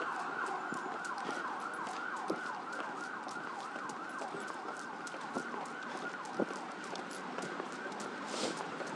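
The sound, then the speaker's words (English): Emergency vehicle siren on a London road near Lambeth Bridge, heading south toward Vauxhall: a repeated wailing sweep rising and falling in regular cycles, steady and moderately loud over a faint rushing background. “You can hear an emergency vehicle heading south toward Vauxhall.”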